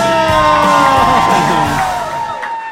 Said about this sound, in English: One of you is the most incredible wooers I've ever heard in my entire life.